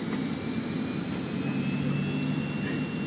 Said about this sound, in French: Ça s'accélère, je vois que j'ai la puissance décollage ici, là, sur mon cadran du haut.